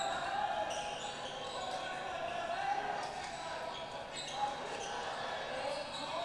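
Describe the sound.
Crowd din from played high school basketball highlight footage of a shot, a steady, dense roar throughout with only a faint thump near the end.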